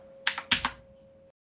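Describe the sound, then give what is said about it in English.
Typing on a computer keyboard during a tabletop role-playing game session: four quick, crisp keystrokes in two close pairs over a faint steady hum, then quiet. “I'm typing on the wrong keyboard.”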